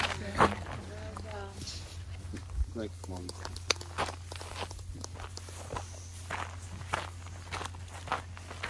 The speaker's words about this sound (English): We are walking back to camp with somebody who's just run for 80 hours.